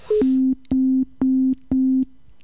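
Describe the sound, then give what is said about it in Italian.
Phone busy tone on a video call: four even, steady mid-pitched beeps separated by equal short gaps, heard alone after a brief higher blip. “vediamo se lui risponde. No. Da occupato, ma forse qualcuno lo sta chiamando. Da occupato.”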